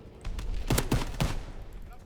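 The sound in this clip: Gunfire from a weapon in a video game, a few sharp, loud shots in quick succession with short gaps between them.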